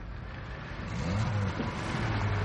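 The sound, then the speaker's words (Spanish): A car turns off the road at dusk, its mid-pitched engine hum building as it approaches. The motor sound is steady, grows slightly louder partway through and carries a faint tonal whine. “Al atardecer, un coche se desvía hacia él desde la carretera.”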